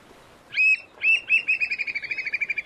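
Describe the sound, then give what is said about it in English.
An American oystercatcher, a large black-and-white shorebird, calls with two loud, high piping whistles followed by a rapid run of many repeated sharp notes in a steady rhythm. “That's the sound of an American oyster catcher, a large black and white shorebird with a beak that looks like a carrot.”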